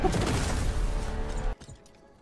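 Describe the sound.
A Sonic Boom attack in a fighting video game bursts out as a loud, crackling, rushing blast lasting about a second and a half, then cuts off sharply, leaving only faint sound.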